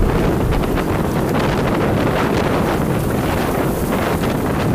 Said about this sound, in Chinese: 一瞬间，从沙尘暴到暴风雪，这样的天气骤变十分罕见。